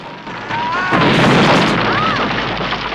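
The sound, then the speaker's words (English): A missile explodes against a platform in a James Bond film scene: a sudden heavy boom about half a second in swells into a broad roaring rumble that slowly fades, with thin whistling tones gliding over it. “A missile hits the platform.”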